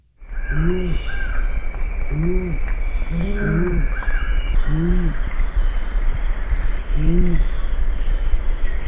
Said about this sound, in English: they don't have the kind of sense of hearing that some of the other owls do, but they have this very low call, which I think probably travels well in the environments that they live in.